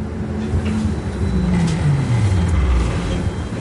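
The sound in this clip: A new city bus drives back to its depot after a test run: a steady low engine rumble whose droning tone slides gradually downward in pitch.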